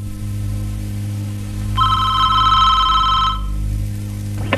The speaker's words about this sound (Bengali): এই ফোনটা একটু ধর না রে।